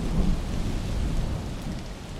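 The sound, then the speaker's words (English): Heavy rain falls through a thunderstorm with a deep, rolling thunder rumble, loud and continuous throughout with no voices. “And a storm blows up with flashes of lightning.”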